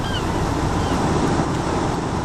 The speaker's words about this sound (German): David lag in seiner Kajüte und wurde von dem leichten Wellengang hin und her geschaukelt.